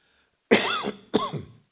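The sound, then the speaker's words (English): Two harsh coughs from a person living with a chronically sore throat after throat cancer. The first cough is sharp and rasping; the second follows after a brief pause and trails off more softly. “I'm not in any pain, but I do live with a sore throat, so I apologize for coughing.”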